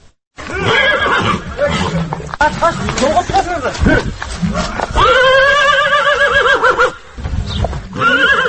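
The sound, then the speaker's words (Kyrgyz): Several loud, quavering whinnies come from a 10-year-old purebred pacer horse at a stud farm by Issyk-Kul. Breathy snorts and rustling fill the short gaps between the long neighs. “Бул Орто Азия боюнча алдына бир да жоргону чыгарбаган айтылуу патрон жоргосунун үнү.”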